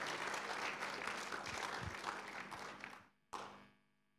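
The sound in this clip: A church audience applauds to welcome an elder, with steady, full clapping that fades out near the end. One sharp thump follows, then near quiet.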